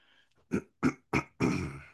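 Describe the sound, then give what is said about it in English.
A person clears their throat at the start of a meditation session, making four rough, guttural bursts in a row, the last one longer and breathier than the others. “Excuse me. Throat clearing.”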